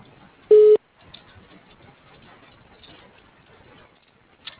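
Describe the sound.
Voicemail recording tone over a phone line: one brief, loud, steady mid-pitched beep, then near-silence with faint line hiss and a soft click near the end.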